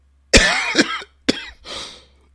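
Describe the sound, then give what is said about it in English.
Three harsh coughs from a host on a live morning news show, loud sudden bursts with short gaps, trailing into a softer, breathy rasp as the throat settles. “It's live. We're going live. That's why I coughed and can't edit that.”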